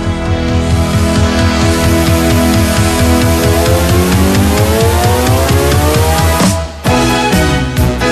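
An Italian pop song is played loudly during a music guessing game. A full band drives a steady, pulsing bass beat, then drops out briefly near the end before the music resumes.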